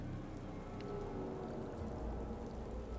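Rain falls outside as a faint, steady hiss that stays even throughout, with no voices or other clear sounds.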